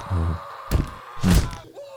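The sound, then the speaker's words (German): A piñata is struck in a game, two dull thuds landing a moment apart, with a short groaning voice sounding just before the first hit. “Oh, und ich schlag auf den drauf. Okay. Das ist eine Pinata”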